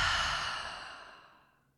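A single deep exhaled breath during a guided yoga breathing exercise, a long breathy whoosh that starts loud and fades gradually over nearly two seconds, with no talk.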